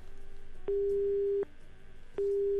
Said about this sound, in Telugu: Sorry కట్టేపోయినట్టుంది.